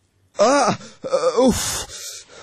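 Moaning, groaning cries from a person crying in their sleep during a bad dream. Two drawn-out, wavering vocal moans, followed by breathy noise.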